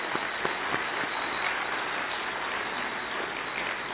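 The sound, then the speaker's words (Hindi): Audience applause at a ceremony after a vote of thanks, a quiet, dense rustle of many hands clapping, with a few sharper individual claps standing out near the start before it settles into an even patter. “हम पुनः सभी लोग मिलकर जोरदार तालियों से आपको धन्यवाद देते हैं।”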